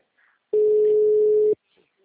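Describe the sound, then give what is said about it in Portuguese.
A telephone dial tone sounds while a call is being placed: a single steady, mid-pitched beep lasting about a second, heard alone with only faint noise before and after. “Tô ligando pra esse safado.”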